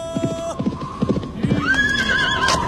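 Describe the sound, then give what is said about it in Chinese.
Hooves clip-clop in a steady rhythm as a rider on horseback approaches across grassland, and a horse's high whinny rises and carries through the second half over a faint low hum. “你看前面过来个骑马的人。”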